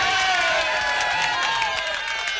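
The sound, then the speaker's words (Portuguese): Audience applause for a woman, a continuous mass of clapping mixed with cheering voices, fairly loud and steady throughout. “palmas pra ela, palmas.”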